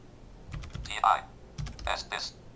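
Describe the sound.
Typing on a computer keyboard in a word processor: several crisp, irregular key clicks, some sharper and louder than others, with uneven gaps between the strokes.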